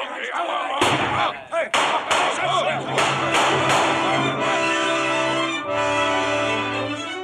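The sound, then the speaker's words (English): Pistol gunshots in a fight with pirates: several sharp, loud cracks in quick succession over sustained tones, the shots tightly bunched in the first half and then fading into the steady tones. “Long John Silver had fired only once. The other shots came from Dr. Livesey, the squire, Mr. Gray, and Ben Gunn.”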